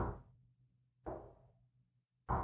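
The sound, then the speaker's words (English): Three slow, evenly spaced heavy knocks on a front door, each a dull thud with a short decaying ring, separated by near silence. “instead, it's a slow, very almost methodical knock”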